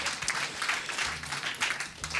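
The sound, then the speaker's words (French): Audience applause at an evening talent showcase: a steady, fairly faint patter of many hands clapping that continues throughout without a break. “On peut les applaudir d'ailleurs, la MCL de Gérard May”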